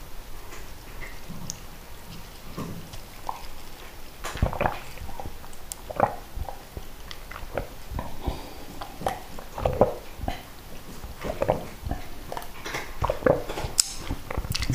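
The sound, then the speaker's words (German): A cookie being bitten and chewed: many sharp, crunchy clicks and snaps in an irregular rhythm, moderately loud, with no talking. “Dann noch einen Keks essen. Muss nur aufpassen, dass ich die nicht alle so schnell weg esse.”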